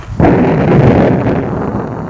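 Sudden heavy thunderclap of a storm at night, bursting in abruptly and rolling on as a loud, sustained rumble that slowly eases.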